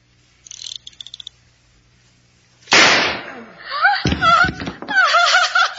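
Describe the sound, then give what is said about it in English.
A single loud, sharp gunshot as a man shoots himself. A few faint clicks come before it, and voices follow afterward. “Mr. Bentley shot himself dead, and it amused you, too.”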